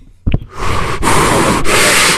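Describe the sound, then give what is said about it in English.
Heavy breathing into a phone: a quick sharp intake, then three long, loud, rough breaths in a row with a noisy, hissing texture. “one that's breathing heavy into the phone”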